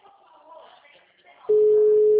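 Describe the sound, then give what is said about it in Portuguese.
A telephone dial tone cuts in after a short stretch of talking, a loud, steady single-pitched hum that holds unchanged to the end. “tô ligando pra ele agora”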